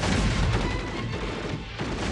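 Dense, sustained gunfire from a battle, a loud, unbroken roar of overlapping shots and booms with no separable single reports, easing slightly midway before swelling back to full strength.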